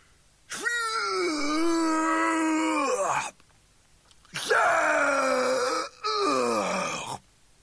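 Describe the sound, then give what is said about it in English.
Loud, drawn-out retching and vomiting groans, voiced by a performer for a man being violently sick: two long, strained heaves, the second broken by a brief catch before it carries on. “I'm going to be sick, said Peterson, and he was. Exorcist sick.”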